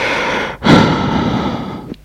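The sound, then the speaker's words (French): Heavy, noisy breathing from a patient during a medical examination: loud, breathy rushes of air with one strong, sharp intake partway through and another brief breath at the end, no talking. “Respirez. Respirez plus fort.”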